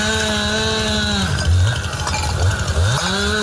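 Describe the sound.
A motorized tool whines as Plan Infoca firefighters clear brush at night near a forest fire by Despeñaperros Natural Park. The loud, buzzing engine pitch sags twice under load and climbs back each time.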